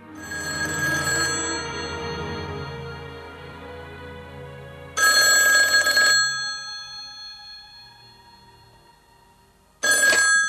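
A telephone bell rings as a nurse calls a husband about his wife, in three bright, metallic bursts separated by quiet gaps, with the sound fading and lingering after each burst; no voices.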